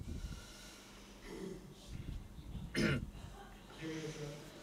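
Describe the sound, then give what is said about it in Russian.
A person clears their throat during a meditation session, with one brief rough burst amid quiet speech. “Прочистите свое горло.”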